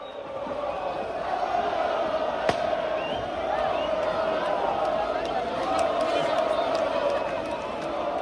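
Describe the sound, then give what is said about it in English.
A huge crowd of 60,000 Lens football supporters cheers and roars as they welcome home their team after it beat Nice to win the Coupe de France for the first time. A steady, dense wash of voices runs throughout, with one sharp bang near the middle. “That is the sound of 60,000 Lens fans welcoming their team back after they beat Nice to win the Coupe de France for the first time in their 120-year history.”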